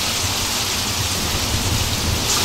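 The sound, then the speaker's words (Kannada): Heavy rain falls in Madikeri, a dense, steady hiss of drops pounding surfaces. It stays loud and unbroken throughout, with no voices. “ಏನು ಬೆಂಗಳೂರು ಹುಡುಗ, ಮಡಿಕೇರಿ ಮಳೆ enjoy ಮಾಡ್ತಿದ್ಯಾ?”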